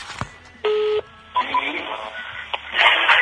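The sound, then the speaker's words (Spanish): A telephone number is dialed on a phone running low on battery: one clear, steady dual-pitched beep lasting about a third of a second stands out, surrounded by clicks, taps and rustling handling noise. “ya les estoy marcando desde aquí para platicar con ellos. Ahí está ya, estamos enlazando la llamada.”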